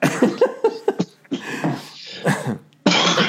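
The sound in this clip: Person coughing several times in short, harsh bursts, each sharp onset followed by a brief rasp, with small gaps between them and a loud final burst.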